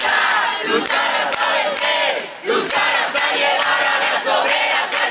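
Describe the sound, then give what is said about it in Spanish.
A large crowd fills the streets of Madrid with a loud, sustained roar of many voices. Shouts and chant-like swells continue throughout, with a brief dip near the middle before the noise surges back. “El sonido ahora mismo en las calles de Madrid.”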